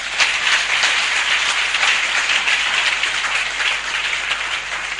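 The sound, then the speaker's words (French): Clapping from a church audience acclaiming the Lord, a thick continuous roar of many hands applauding together, loud and sustained with slight swells, and no voices audible over it. “Acclame le Seigneur pour ça.”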